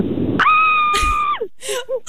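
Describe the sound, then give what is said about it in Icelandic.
A person screams as loud as they can: one piercing, high-pitched cry about a second long that holds steady, then drops off. It is followed by short breathy vocal sounds. “Getur þú öskrað eins hátt og þú getur fyrir okkur?”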